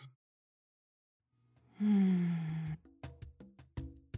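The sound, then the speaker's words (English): A deep breath drawn in quietly, then let out as a long voiced sigh that slides down in pitch, followed by a few short, sharp mouth sounds. “All right, queers. Deep breath for that.”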